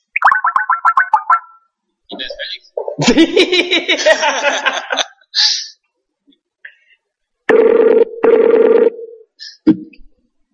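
A telephone rings with an incoming call, sounding as two loud buzzing bursts near the end. Before them comes a jumble of short electronic effects and warbling tones.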